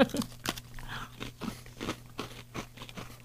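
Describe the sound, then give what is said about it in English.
Someone bites into a red velvet Oreo cookie and chews it, making faint, crisp crunches that repeat many times at an irregular pace. “So I'm going to taste just the cookie on the first taste.”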